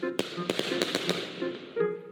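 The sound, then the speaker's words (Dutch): Leftover firework rockets being launched: a quick series of sharp pops and cracks over a steady tonal background, ending with a brief swell. “U hoort het, we schieten speciaal voor u nog een aantal verlaten vuurpijlen de lucht in.”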